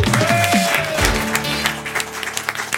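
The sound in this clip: A studio audience applauds as a guest arrives on a talk show; the guest is an essayist and cook. The clapping is dense and steady and lasts throughout.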